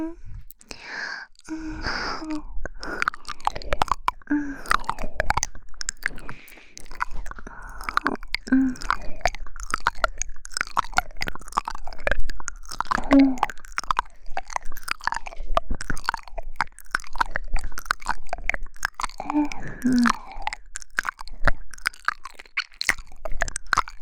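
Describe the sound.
Someone chews and eats home-cooked food, with many soft, wet chewing and crunching sounds in an irregular steady rhythm, mixed with close whispering and occasional sighs.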